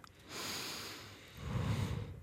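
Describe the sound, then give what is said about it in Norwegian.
A slow breath drawn in through the nose, then let out through the mouth during a guided hypnosis relaxation: a soft, airy, hissing inhale followed by a louder, lower, breathy exhale, heard alone without talk. “Vi puster inn gjennom nesen, ut gjennom munnen.”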